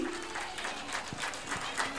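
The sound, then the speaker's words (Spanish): Audience applause: a steady, dense patter of clapping from a crowd, fairly faint and even throughout, with no clear peaks. “Y un aplauso porque se lo merece con toda fuerza.”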